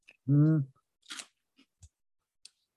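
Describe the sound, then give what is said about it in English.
Dry chocolate cereal puffs crunch during a dry taste test: a short voice, then a few brittle crunching bites and small clicks of chewing. “Dry taste test. Can't get the puff out.”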